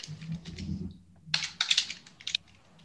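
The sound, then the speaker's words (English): Typing on a computer keyboard while a plan is pulled up: quick, crisp keystrokes in irregular bursts, with a brief pause near the middle, over a faint low background hum. “If I can type.”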